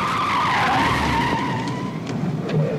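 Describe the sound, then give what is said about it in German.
Car braking hard and skidding on a road at night, a loud, continuous tire squeal with a slightly falling tone that lasts almost three seconds. “Ich trat auf die Bremse.”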